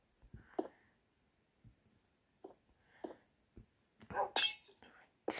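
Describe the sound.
Glass panes break in a video game: several soft, quiet clinks and thuds come first, then a louder burst of crunching, shattering glass near the end.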